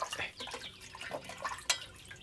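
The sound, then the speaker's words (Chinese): Hands are washed under running water: a steady wet spatter with drips and a sharper splash near the end. “来，洗洗手吧。”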